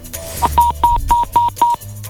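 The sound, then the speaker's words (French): Keypad DTMF tones as a telephone number is dialed for a live call: a quick, evenly spaced run of short, bright beeps, each cut off cleanly, over a low steady background. “Est-ce qu'on a des numéros de téléphone au standard? Eh bah oui, j'en ai mis un. Alors c'est parti, on les appelle en direct.”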